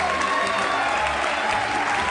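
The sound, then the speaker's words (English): A live audience in Chicago gives a standing ovation: a dense, steady wash of loud applause that holds at an even level throughout. “Standing ovation, Chicago.”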